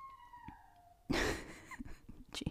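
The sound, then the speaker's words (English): An upset dog whines in a thin, drawn-out high tone that wavers slightly. A louder burst of breathy noise follows, then scattered softer sounds, all fairly quiet. “She's upset, but you're going to think we're murdering dogs in the background. We are not.”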